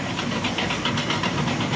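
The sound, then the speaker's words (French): A tractor and a heavy truck pass during a wildfire response, filling the air with a dense, loud engine roar and hiss that stays steady without a clear rise or fall. “là c'est un tracteur qui passe sous notre nez. Un deuxième poids lourd là qui passe.”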